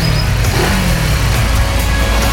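A car engine accelerating as a sound effect gives a loud, continuous motor roar with a thick low growl. The roar holds steady for the whole short stretch.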